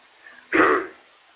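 Throat clearing from a tickle in the throat: one short, rasping burst that starts abruptly, stands out loudly against faint background noise, and fades quickly.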